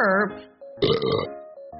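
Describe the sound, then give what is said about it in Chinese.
A single brief, throaty burp, shown as an example of the sound in a language lesson, with a short vocal sound just before it. “burp， 它指的是打饱嗝的意思。”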